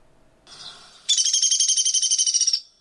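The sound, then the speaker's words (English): A bird's whinny call: a softer high note leads into a loud, rapid trill of many even, high-pitched pulses lasting about a second and a half before it cuts off. “once in a while, you might hear a different vocalization that's referred to as a whinny. And let's see if we can get that to play.”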